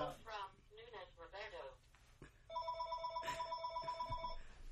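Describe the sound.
A telephone rings as a caller phones in to a show, a steady electronic ringing tone that pulses repeatedly after a stretch of people talking at the start.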